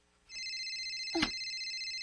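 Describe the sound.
A mobile phone ringtone starts after a brief quiet moment and keeps going to the end as a steady, bright electronic tone, with one short dull bump partway through.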